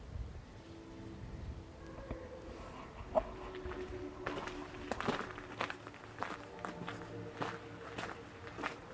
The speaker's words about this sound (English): And I'm just going to walk around.